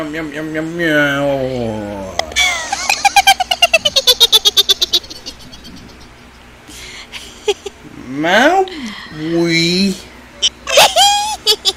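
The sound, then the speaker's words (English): A person vocally imitates a cat's meow: a few wavering, pitch-bending meow-like cries, with a stretch of rapid pulsing voiced sound in between, all made by a human voice. “Do your impression of the meow meow thing that we were doing.”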